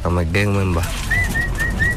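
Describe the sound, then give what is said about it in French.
Pigeons cooing and calling behind a house: a rich, low call at the start, then a run of short, thin, repeated high notes that carry on steadily to the end. “Peter Amoulé, 35 ans, qui élève des pigeons à l'arrière de la maison”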